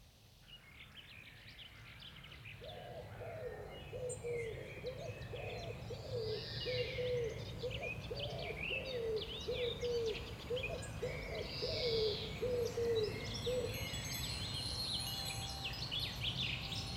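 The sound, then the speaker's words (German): Birds singing in trees: a run of soft, low, hoot-like calls and scattered higher chirps over a constant hissing background. “Die Vögel singen in den Bäumen.”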